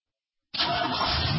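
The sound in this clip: A car engine starts abruptly after half a second of silence, then keeps running loud and steady with a broad, rough mechanical roar.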